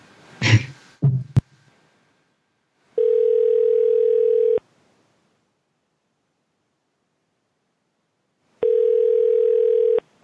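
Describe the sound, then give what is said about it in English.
Telephone tones while dialing a call: handling clicks and rustle at the start, then two long, steady electronic tone bursts separated by several seconds of silence. “I'm going to dial another one in.”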